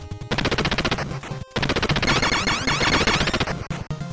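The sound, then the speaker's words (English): Rapid machine-gun fire from the video game Contra, aimed at a gun turret: a dense stream of sharp, evenly spaced electronic shots, briefly cutting out once before the firing resumes. “We take aim with our machine gun and let loose.”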